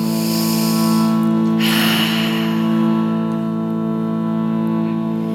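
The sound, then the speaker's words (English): A group taking a deep inhale through the nose and releasing it through the mouth during a mantra practice, one soft breathy swell rising and fading over a steady sustained drone. “Let's all take a deep inhale through the nose, that'll fall away through our mouths.”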